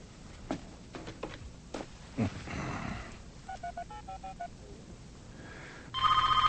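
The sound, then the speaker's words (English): A telephone rings in trilling electronic bursts after some clicks and handling noise, with one cluster of rapid ring pulses and then another louder ring near the end. “Come on, Elizabeth, pick up.”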